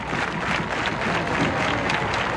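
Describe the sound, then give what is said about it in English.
A packed crowd at Hadlock Field baseball stadium breaks into applause during a night game. The clapping is a loud, dense, even roar from start to finish. “And there are those claps from Hadlock Field. Packed house here tonight.”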